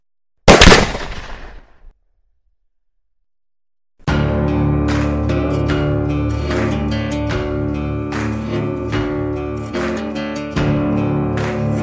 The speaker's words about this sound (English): He turns around, sights his gun in a split second, and pulls the trigger.